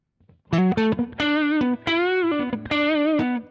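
Saturated, distorted tones from an effect with its saturation drive knob turned up: a quick run of short notes, then several sustained, harmonic-rich notes, loud and thick, with no talking.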